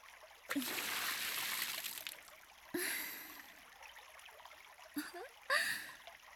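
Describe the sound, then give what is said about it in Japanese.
Water poured over a shoulder, heard as a few soft bursts of rushing, trickling splash, each starting sharply and then fading, with quiet gaps between them. “反対側の肩からも水をかけてあげる。”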